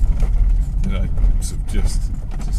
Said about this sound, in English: I'm like just about to drive back up the bumpy track.